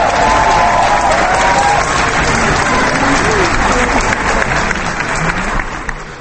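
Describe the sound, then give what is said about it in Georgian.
An audience applauds a Georgian dance performance. Dense, loud clapping continues steadily from start to end and eases slightly in the final moment. “შემდეგ გამოფხიზლდა, ამას სიცხეც უწყობდა ხელს და ის ხანდახან ტაშით თუ ახვებოდა ცეკვას. ხანაც უბრალოდ ოვაციას მართავდა.”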